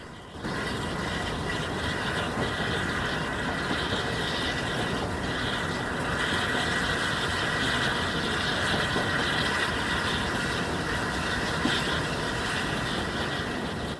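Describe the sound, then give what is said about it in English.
A steam train rattles steadily along a remote countryside track bordered by trees and thick vegetation. The rumble is continuous and fairly faint, with no voices. “Rattling through the countryside, the train passes knots of spectators on a remote stretch of track bordered by trees and abundant vegetation.”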